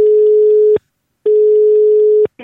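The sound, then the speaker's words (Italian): Telephone line tone on a call into a radio station: two long, steady beeps at a single pitch, each about a second long, separated by a short silence, with a brief click at the end. “Andiamo subito al telefono su Radio Toscana”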